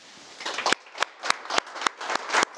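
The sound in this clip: An audience at a conference in Lyon applauds the Syrian people, a dense, steady patter of many hands with sharper individual claps standing out at irregular moments throughout.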